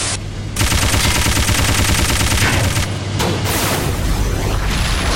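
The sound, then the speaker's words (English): Machine gun fire in a video game: a loud, rapid, continuous stream of shots with a brief dip near the middle, then sustained firing again. “Machine gun 90. Yeah, it moves around.”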